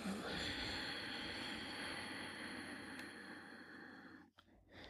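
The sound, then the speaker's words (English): A slow exhale goes out through the nose with the back of the throat constricted. The soft, breathy hiss holds steady for about four seconds, then tapers off. It is quiet and there is no talk over it. “Inhale through the nose, contracting the back of the throat. And slowly let it out through your nose.”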